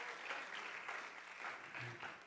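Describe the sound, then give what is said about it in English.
Applause from a church audience clapping their hands in praise for the choir and praise team, a dense, steady wash of clapping that continues without a break from start to finish. “Give them a hand clap of praise. Would you do that?”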